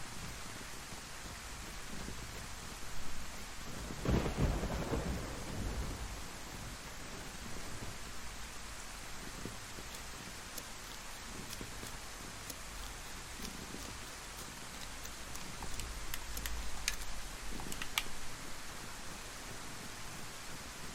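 Rain and thunder in a video game: a steady hiss of rainfall with a couple of heavier low rumbles of thunder swelling through it, no voices.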